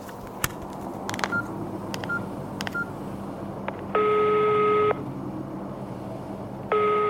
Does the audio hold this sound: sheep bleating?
no